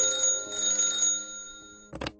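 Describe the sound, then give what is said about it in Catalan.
A telephone bell rings in a hotel room, one sustained metallic ring that fades away, followed by a brief knock near the end. “En aquell moment, truquen per telèfon. La dona corre al telèfon i despenja.”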